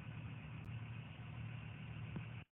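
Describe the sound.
A car engine idles just after being driven up, a steady low hum with no change in pitch.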